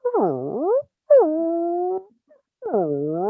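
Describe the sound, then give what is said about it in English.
A mastiff howling as if singing: three long, tonal howls split by short silences. The first dips and rises, the second is held steady, and the third slides downward. “the melancholy Mastiff's ode to ear scratches”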